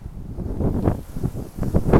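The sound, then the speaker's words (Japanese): Strong wind gusting outdoors during a night walk, buffeting the microphone with low, rumbling bursts that swell and fade several times across two seconds, with no voices. “風が吹いてますけども”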